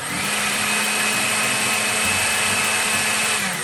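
A blender liquefies a fruit mixture with seeds for a smooth homemade dessert, giving a loud, steady whirring roar that holds unchanged throughout with no talking.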